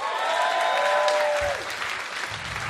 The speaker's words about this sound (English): Give it up for Sean Mullen.